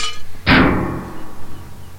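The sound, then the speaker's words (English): A beer bottle dropping and glass breaking, as a sound effect in a space-travel video game. A sudden loud crash bursts out after a quiet lead-in, then rings down into a long, slowly fading tail. “Holy cow, you dropped your beer bottle on.”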